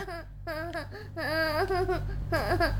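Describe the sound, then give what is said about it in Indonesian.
A young child cries and wails in uneven bursts of wavering, high-pitched sobs, with a low steady hum underneath. “Sudah. Sudah ya, jangan nangis.”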